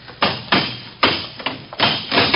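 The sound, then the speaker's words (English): A lock is smashed open with several heavy, hard blows, each a sharp thud that rings out briefly before the next strike. “smash that lock.”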